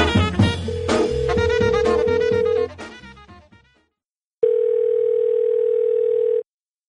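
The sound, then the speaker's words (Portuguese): A telephone dial tone holds a steady single pitch. It first runs under a dense burst of other sound that fades out, then returns alone after a short silence and lasts about two seconds before cutting off. “O cara acabou de atender o telefone”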